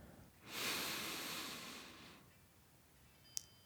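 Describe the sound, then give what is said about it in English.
A single deep breath drawn in during a guided meditation session: a long, soft, airy inhalation that swells quickly and fades over nearly two seconds, followed by quiet. “Let's pause here for a moment and take a big, deep breath.”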